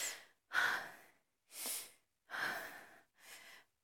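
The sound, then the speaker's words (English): Five deep breaths, each a slow, airy rush separated by short pauses, loud and close with no talk around them. “Let me take deep breaths,”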